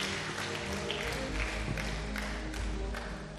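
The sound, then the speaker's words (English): A church audience claps their hands during a service, a dense, continuous patter of many hands at an even, moderate level throughout. “Can you clap your hands for the Lord?”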